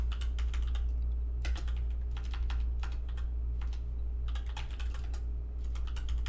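Fast typing on a computer keyboard: many crisp plastic key clicks arrive in quick clustered bursts separated by short pauses, steady and fairly loud over a low constant hum, with no voices.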